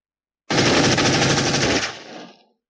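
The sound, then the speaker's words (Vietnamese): A machine gun fires one loud, dense burst of rapid shots lasting about a second and a half, then the sound tails off and fades out. “Khẩu súng máy trong tay đồng tử đã điên cuồng nổ vang, vỏ đạn điên cuồng bắn lên”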